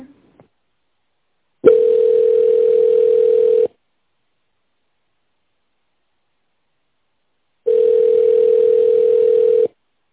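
Two long, steady ringback tones of about two seconds each play on a company's phone line, separated by a long silence, while the caller waits for the secretary to answer.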